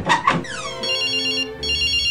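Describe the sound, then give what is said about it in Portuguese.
A mobile phone ringtone rings inside a bedroom as a bright, loud electronic melody. Two short opening notes give way to sustained ringing tones that break off briefly, then start again. “O toque do seu celular está vindo aqui de dentro do quarto do Chicão mesmo.”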